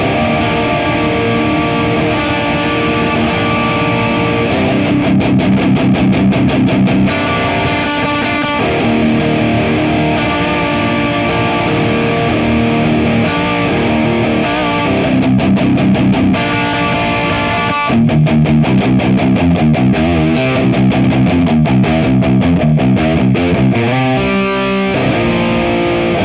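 Heavily distorted electric guitar played through two stacked EarthQuaker Devices pedals in mode 3 into a Mesa oversized 4x12 cabinet, with loud, dense riffing, sustained chords and bursts of rapid chugging with brief pauses.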